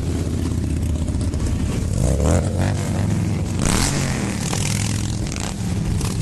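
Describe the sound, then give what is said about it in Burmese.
Rolling Thunder motorcycles rumble through Washington DC, a dense continuous roar of many engines with revving swells near the two- and four-second marks and scraping clatter mixed in. “ဆိုင်ကယ်စီးသူ9သိန်းလောက်ဟာမြို့ကိုလှည့်လည်မောင်းနေတာကြောင့်မိုးချိမ့်တယ်လို့လည်းကြားနေရပါတယ်။”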